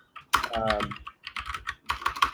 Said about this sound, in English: Let me type this out for you.